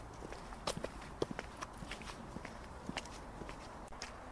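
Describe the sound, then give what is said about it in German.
Footsteps walking along an outdoor path toward a concert gallery in the morning. The steps are faint and come as many soft, irregular treads over a quiet, steady background. “Und jetzt laufe ich mal so Richtung Konzertgalerie hier einfach den Pfad weiter.”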